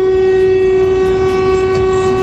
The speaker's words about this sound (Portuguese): já vem com a buzina dele já